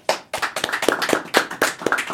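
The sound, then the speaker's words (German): Applause welcoming a guest comes as a run of crisp, distinct claps, sparse enough to sound like only a few hands, keeping a loose, uneven rhythm throughout. “Ich begrüße mit einem großen Applaus Jupp Bläser.”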